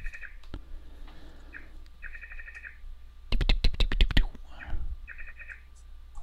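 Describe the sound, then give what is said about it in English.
A frog chirping in a few short bursts of rapid, high trilling pulses, with a run of sharp, loud clicks in the middle. “We got a frog chirping.”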